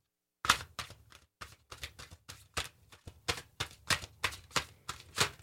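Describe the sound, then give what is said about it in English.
Tarot cards being shuffled during a reading: a quiet run of many crisp, irregular slapping clicks. “So those two cards just fell out of the deck, and so you just keep them out. Yep. Because obviously they don't belong into the deck”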